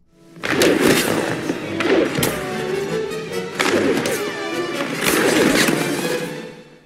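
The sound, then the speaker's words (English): Exaggerated ice hockey sound effects come from the film D2: The Mighty Ducks. Skate scrapes and heavy crashing thuds arrive in a few loud, punchy bursts separated by brief lulls. “as they're like playing hockey initially, the OGs, the duck OGs versus the new kids, I just had to listen to these sound effects they play when these kids are playing hockey.”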